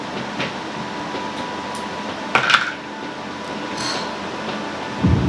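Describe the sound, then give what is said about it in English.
Small bone dice are rolled during a tabletop game, giving a brief, bright clatter of a few quick clicks midway. It rises over a steady low background hum, and a faint knock comes near the end. “use my tiny bone dice again”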